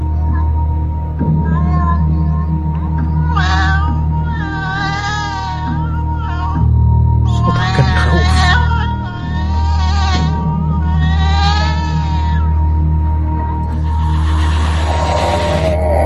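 A cat meowing, heard as drawn-out, wavering wails that come and go over a loud, steady low rumble and a constant hum.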